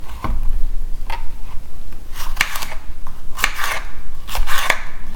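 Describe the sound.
A knife slices through food with a few sharp, crisp cutting strokes at irregular intervals over a steady background hiss, with no talk.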